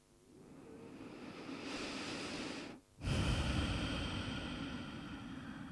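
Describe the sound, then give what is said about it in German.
A deep breath in and out during guided relaxation: a long, soft, airy inhale, a brief pause, then a fuller, louder breathy exhale, with no talk. “Nimm einen tieferen Atemzug ein und aus.”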